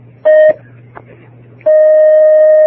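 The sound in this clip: Telephone line tones as an incoming call connects: a short loud electronic beep, a gap with a low hum, then a long steady loud tone.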